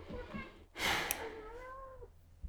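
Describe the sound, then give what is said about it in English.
A cat meows after dinner: a single drawn-out meow, fairly faint, following a short noisy rushing burst. “This is just the cat telling me that she's had dinner.”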